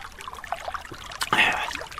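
Sipping a sweet fizzy orange soda: soft liquid trickles, then a louder slurping sip with a hissy, bubbly tail halfway through, followed by lighter wet sounds.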